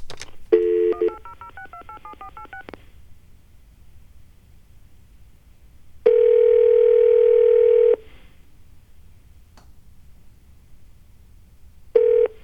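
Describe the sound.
Touch-tone dialing of the phone number 1-800-NATRIUM, a quick run of many short keypad beeps, then after a pause a long steady tone and a brief tone at the end.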